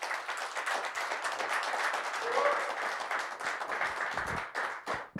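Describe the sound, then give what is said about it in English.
An audience applauds a UFC champion invited up as a guest. The sustained, crackling clapping from many hands holds steady, then dies away unevenly near the end. “Give her a hand.”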